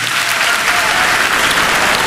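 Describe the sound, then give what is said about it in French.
An audience at a Miss France regional pageant event on La Réunion breaks into thunderous applause for a delegate. The clapping is loud, dense and unbroken from start to finish. “Et puis je vous demande un tonnerre d'applaudissements pour le délégué Miss France pour la Réunion, Aziz Patel.”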